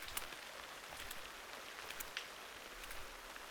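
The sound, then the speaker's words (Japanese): Rain patters on a clear vinyl umbrella, a faint, soft crackle of many scattered drops with a few slightly sharper taps standing out, steady and quiet throughout with no talking. “傘を雨が叩く音も結構好きなんです。ビニール傘だと透明だから、雫が伝って流れていくのも見えて”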